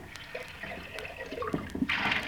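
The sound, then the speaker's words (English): Hot water being poured into a teapot to warm it, a steady liquid trickle and gurgle with a few drip-like splashes, swelling to a louder, hissing rush near the end. “Nice hot water in the pot, so it's warm.”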